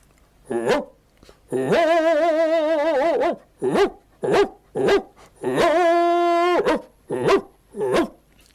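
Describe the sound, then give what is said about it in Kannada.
A human voice imitates a big dog barking, giving about eight deep, throaty woofs: mostly short, sharp barks mixed with two long, drawn-out wavering howl-like calls, loud and with no other sounds. “ನಾಯಿ ಬೊಗಳುವುದಂದರೆ, ದೊಡ್ಡ ನಾಯಿ ಬೊಗಳುವುದಂದರೆ,”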